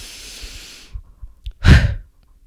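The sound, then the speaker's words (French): A person takes a deep breath in, then lets it out all at once. A quiet airy inhale is followed by a few soft breathy bumps, then one loud, forceful rush of exhaled air that cuts off abruptly. “je prends une grande inspiration et je lâche d'un coup. Je fais en mode.”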